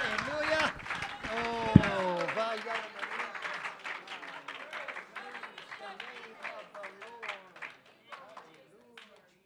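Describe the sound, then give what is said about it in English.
A church audience claps their hands during praise, with steady, rhythmic claps over voices raised in song. The sound is loudest at the start and slowly fades toward the end. “As the singers come, I want you to clap your hands and give God the praise in the name of Jesus.”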